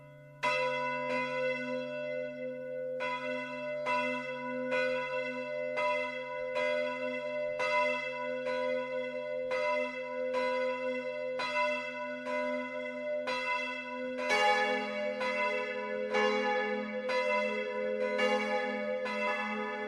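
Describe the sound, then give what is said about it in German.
Midday bells ring from the Catholic parish church of Mariä Himmelfahrt in Lohkirchen, Upper Bavaria, striking in a steady, even rhythm of bright metallic peals over a low hum. A fuller, louder peal takes over for the last few seconds. “Es ist 12 Uhr. Das Mittagsläuten kommt heute von der katholischen Pfarrkirche Mariä Himmelfahrt im oberbayerischen Lohkirchen.”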